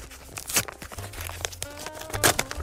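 A paper envelope being torn open, with a few sharp ripping bursts separated by softer crinkling and rustling of the paper.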